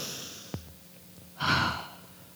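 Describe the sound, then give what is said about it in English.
One deep breath drawn in with lavender held up to the face during a quiet guided prayer. A faint brief click comes first, then a soft, broad breathy rush that swells and fades, with no talking. “Kind of put the lavender up by your face and just take inhales really big.”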